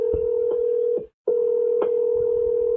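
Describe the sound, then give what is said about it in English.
A telephone tone sounds while a call is placed from a phone app: one steady, mid-pitched electronic tone that holds, breaks off briefly for a moment of silence, then resumes at the same pitch. “let's call him right now. I'm going to do this. Can you hear the dialing?”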